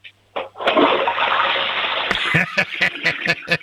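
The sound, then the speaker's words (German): A toilet flush: a sudden rush of water roars steadily for about a second and a half, then breaks into a series of short gurgling bursts as the bowl drains. “die Klospülung drücken können. Du drück nochmal drauf, schnell. Einmal wollen wir sie noch hören.”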